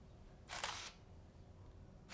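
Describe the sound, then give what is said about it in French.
Camera shutter taking a portrait photo: one crisp burst of shutter noise, then a second click at the very end, both faint and set against quiet hiss. “Et maintenant, un beau sourire. On va vous tirer le portrait.”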